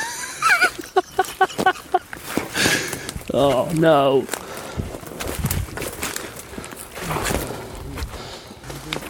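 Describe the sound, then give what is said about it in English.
Squelching footsteps of wet feet in soaked footwear, heard while walking outdoors on sodden ground: a run of soft, wet squishing steps, with a person exclaiming and talking between them. “Oh, I've got wet feet. Oh no. Oh, that's the sound of my feet.”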